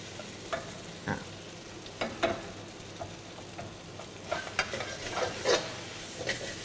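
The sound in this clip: Bean sprouts and sauce stir-fry in a pan, a constant low sizzle broken by many irregular utensil scrapes and taps against the pan, some sharper and louder clusters mid-way and toward the end.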